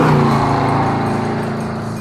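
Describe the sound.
A car engine drives up, giving a loud, steady, low-pitched rumble with a droning tone that eases off slightly toward the end, with no voices.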